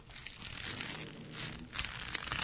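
Dry, faint crinkling and rustling of old wrappings being peeled away from a preserved body, beginning at the head, continuing unevenly throughout.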